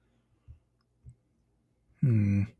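A computer mouse clicks twice, soft and spaced apart, while scrolling, and a brief loud voiced sound follows the clicks.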